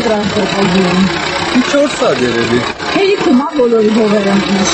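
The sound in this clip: An old tractor engine, used for years in a village for plowing, runs with a steady mid-pitched idle rumble beneath people talking.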